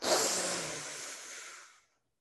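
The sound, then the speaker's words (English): A deep inhale during a guided relaxation breathing exercise, drawing the lungs to full capacity. The long, airy rush of breath starts strong, fades gradually over nearly two seconds and ends in silence. “So you can try that a little bit more advanced breath. So here we go. Inhale”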